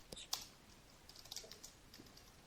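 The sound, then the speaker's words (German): Typing on a computer keyboard, heard as a few faint, scattered clicks and taps at an irregular rhythm over a quiet background. “Ja, ich habe es gerade aufgetippt.”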